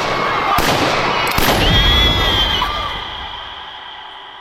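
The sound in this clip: Gunshots fired into the air in a dramatized panic scene: two sharp, sudden bangs cut through a dense, loud wash of noise that gradually thins toward the end.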